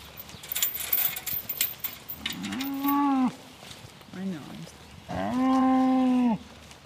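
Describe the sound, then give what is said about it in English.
Dairy heifers mooing, with two long, drawn-out low moos standing out loudly over faint background noise. “Three girls have come down to see us. These are our three replacement heifers that were born on our property.”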